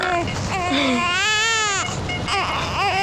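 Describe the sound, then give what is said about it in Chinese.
A baby cries loudly and without a break, in sustained wailing bursts whose pitch swells and dips throughout. “不哭了，不哭了啊！妈妈忙完就过来找你了啊！”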